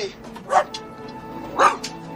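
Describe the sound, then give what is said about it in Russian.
A terrier and a St Bernard puppy bark at each other, giving two sharp, loud barks about a second apart, each followed by a softer yip, over low steady background noise. “Выпрыгнув из клетки, терьер подходит к клетке со щенком сенбернара. Стоя друг напротив друга, они лают.”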